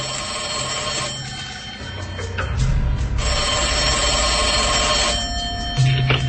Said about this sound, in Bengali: সাত পাঁচ ভাবতে ভাবতে তৌসিকে ফোন দিয়ে বসলেন।